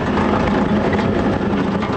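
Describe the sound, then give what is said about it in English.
A 26-ton amphibious assault vehicle that carries Marines gives off a loud, steady engine roar, a dense, unbroken rumble with no pauses or voices. “The Amtrak will never be confused with a Cadillac Escalade. The ride is jarring, the noise incessant”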